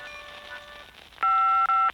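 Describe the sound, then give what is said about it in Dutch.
An answering machine beep sounds as a loud, steady high-pitched electronic tone lasting under a second, broken by a brief gap near its end. Fainter sustained tones come before it. “Na de piep kunt u een boodschap inspreken. Na de piep, dan bel ik u zo snel mogelijk terug.”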